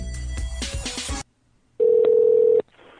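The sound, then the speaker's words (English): A telephone number is dialed: a single steady electronic tone of just under a second sounds alone after a louder, mixed sound cuts off and a short silence passes. “I'm going to keep it on while I dial this number.”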